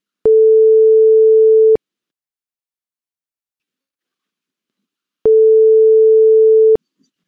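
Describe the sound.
Telephone ringback tone while a call is being placed: two steady, mid-pitched electronic tones, each about a second and a half long, separated by a long silent gap.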